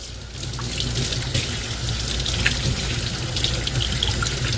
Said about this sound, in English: I'm going to wash my hands real quick